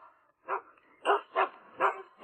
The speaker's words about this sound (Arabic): هناك من ترك كلبه في السيارة ونسي النوافذ مغلقة. في هذا الحر؟